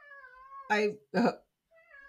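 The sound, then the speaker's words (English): A pet cat wails in drawn-out, tonal cries at the start and again at the end, with a person speaking briefly in between. “There's a cat wailing in the background.”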